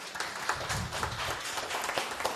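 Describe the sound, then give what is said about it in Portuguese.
A crowd applauds the legislature at a public session in Muzambinho, with many hands clapping in a dense, steady patter that stays fairly faint throughout. “Portanto, eu é que peço uma salva de palmas para o Legislativo nosso.”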